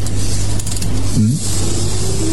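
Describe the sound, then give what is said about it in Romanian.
Whirring of a small toy car being run: a steady motor buzz with a low, even hum that holds for about two seconds. “A, nimic. E o mașinuță. Merge?”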